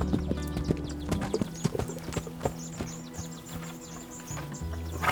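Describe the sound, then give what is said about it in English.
A ridden burro's hooves clip-clop on trails around a camp, town and canyon hills, producing an uneven rhythm of many sharp, moderately loud knocks that continue throughout. “At first, I felt completely alone, except for Ruben and Pepito, a burro I rode everywhere. Into town, up into the hills and canyons outside the camp.”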